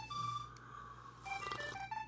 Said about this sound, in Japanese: なんで電話入るかな、 テンテルタテテン